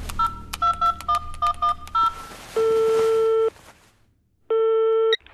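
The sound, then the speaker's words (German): A telephone number is dialed on a phone: a quick run of short, pitched keypad tones, followed by two long, steady ringing tones separated by a pause. “Eilig griff er zum Telefon und wählte die Nummer seines Sohnes.”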